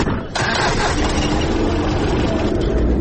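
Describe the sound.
A car engine runs loudly as the fully loaded vehicle sets off, a dense, steady rumble that holds at the same level for the whole clip after a brief dip at the start.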